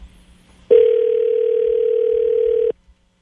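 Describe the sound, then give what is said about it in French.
A telephone ringing on the line while a call is placed: a single loud, steady tone that holds for about two seconds and cuts off cleanly, with near silence before and after. “Ce sera pas bien long, ça sonne.”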